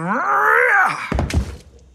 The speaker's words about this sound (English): Why did you do that? Someone put it there. It was horrifying. You've destroyed a jack-o'-lantern on Halloween.